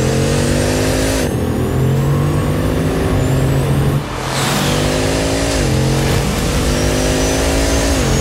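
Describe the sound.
A car accelerating hard toward 100 km/h, its loud engine note climbing in pitch, dropping back at a few gear changes and climbing again, with no voices.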